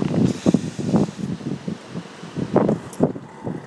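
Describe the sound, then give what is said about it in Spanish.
Cold wind blows outdoors, rumbling in uneven low gusts against the microphone with a rustling, hissing edge, steady throughout and with no voices. “Ahí está el viento.”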